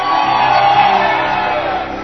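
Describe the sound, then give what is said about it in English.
Church audience shouting praise at a miracle service, a loud sustained crowd roar of shouts and whoops that holds steady for about two seconds. “Clap your hands, oh you people. Come on, shout to the Lord with a voice of triumph.”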